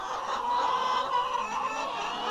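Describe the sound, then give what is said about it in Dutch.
Hens cluck in a battery egg farm, a long dimly lit barn with cages holding up to three birds each; many overlapping clucks and squawks merge into a dense, steady din. “In elk hok zitten maximaal 3 kippen, die enige bezigheid bestaat uit eten en eieren leggen.”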